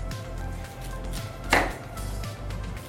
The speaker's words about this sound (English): I'm just going to make the first cut for you because I don't want you to hurt yourself. For this recipe, I'm going to use a half a cup of red cabbage. Okay. And a full cup of green cabbage. So we're going to remove the core.